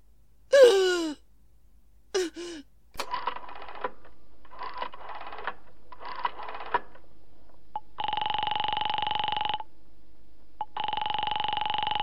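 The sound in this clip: A telephone is dialed after a couple of sharp gasping breaths, then four quick bursts of clicking dial pulses, then two long, steady ringing tones, with no talk.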